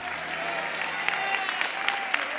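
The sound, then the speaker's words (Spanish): Congregation applause at a church service, a dense, steady wash of clapping with a few sharper individual claps rising above it, holding at an even level throughout. “Vamos a darle un aplauso, si usted lo cree.”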